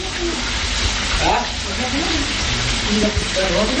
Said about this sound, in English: you can hear the food cooking here in the kitchen.